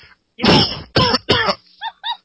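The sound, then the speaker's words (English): Someone clears their throat harshly: three rough, loud bursts in quick succession, then two shorter, softer rasps. “I gotta get this thing out of my throat.”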